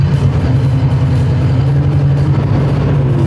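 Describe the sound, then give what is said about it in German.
A Samoli utility vehicle with twin rear tires, used in summer to service snow cannons, runs its engine at a steady, loud, low-pitched idle with an even rumble throughout and no voices. “Das ist ein Samoli, den brauchen wir im Sommer für die Schneekanonenrevision immer. Jetzt starten wir das Ding einmal.”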